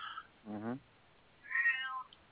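A cat meows twice, quietly: first a short, lower, wavering meow, then a longer, higher, drawn-out one, with a pause between them.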